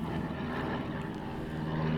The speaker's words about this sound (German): Bei uns sind ein paar Flugzeuge, die ein bisschen lauter sind, deswegen.